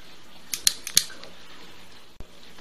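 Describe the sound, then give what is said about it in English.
A cigar being cut with a Cigarism V cutter: a few quick, crisp clicks in a short cluster, then a pause and a single sharper snap, faint and without talk. “So let's take our Cigarism V cutter and give it a cut.”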